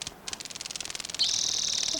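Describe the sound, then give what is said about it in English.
A grasshopper flying by gives a rapid run of dry, high-pitched ticking pulses that merge into a steady, loud, shrill buzz. “Grasshopper flying by.”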